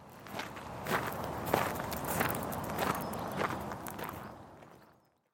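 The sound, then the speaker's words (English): Footsteps walking among the graves of a cemetery in Cambridge, a steady run of evenly paced steps with a crunchy scuffing texture, moderately loud and alone, stopping abruptly into silence near the end. “Let's go and have a look then and walk among the graves and see what we can see.”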